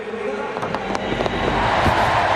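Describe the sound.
Home crowd cheering at an athletics pole vault as a British vaulter clears the bar: a broad, noisy roar with scattered sharp claps and bangs, swelling steadily louder toward the end.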